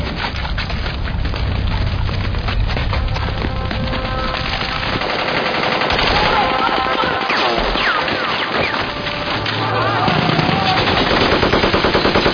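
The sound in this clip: Close-range automatic gunfire rattles in rapid, harsh bursts of sharp cracks that continue almost without pause and grow loudest near the end.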